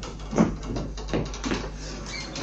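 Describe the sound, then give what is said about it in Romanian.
Knocking on a door, a few dull, separate knocks spaced unevenly across a quiet background. “Bate cineva. El trebuie să fie.”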